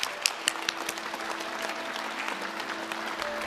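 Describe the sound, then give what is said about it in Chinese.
Audience applause at a live reading event: steady, dense clapping with a few sharper claps near the start and a faint tone lingering underneath. “当然最重要的还要感谢我们的观众朋友们、听众朋友们的支持，给他们掌声，”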